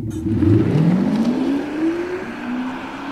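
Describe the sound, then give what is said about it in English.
A Tesla fitted with a sound booster gives off artificial engine noise, a loud revving roar whose pitch climbs steadily, swelling and then easing off across the few seconds. “there's a company that's even developed a sound booster. And your Tesla could end up sounding like this.”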